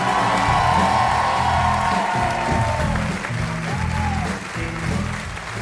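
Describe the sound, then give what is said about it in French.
An audience gives applause and cheering, with dense clapping mixed with whoops and shouts. It is loud from the start and eases slightly in the second half. “Et donc on leur fait une ovation, c'est Marie Bongiovanni et Anne-Marie Lecomte.”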